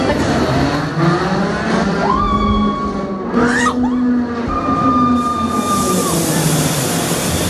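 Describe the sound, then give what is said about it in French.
Roller coaster ride with a harness-locked car: a loud, steady roar of the train running on its track throughout, with sustained high squealing tones rising out of the noise mid-ride. “Ça y est, je suis descendue du North Storm. Bon, vous l'avez entendu, normalement j'ai bien crié.”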